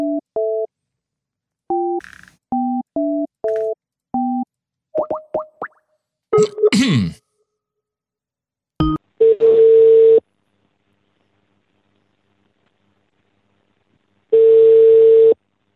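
Telephone tones sound while someone calls a building's reception desk: a string of short keypad beeps, a quick burst of chirping tones, then two long, steady tones separated by a silent gap.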